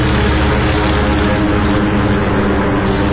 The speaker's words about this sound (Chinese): 首先起飞的是第8鱼雷轰炸机中队。